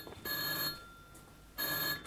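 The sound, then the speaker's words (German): Telephone ringing in a night watchman's office: two clear bursts of bright, metallic ringing separated by a quiet pause, with another ring just beginning at the end. “Das ist das Telefon im Büro des Nachtwächters.”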